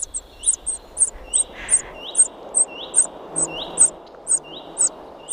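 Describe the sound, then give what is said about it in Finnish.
Common cuckoo chick begging in a common redstart nest: a steady, insistent series of many sharp, high chirps at regular short intervals, with fainter rising calls between them over a low background hiss. “Juha Haikolan äänitteen siitä, miten vaativalta se oikein kuulostaakaan, kun käenpoikainen kerjää leppälinnun pesässä.”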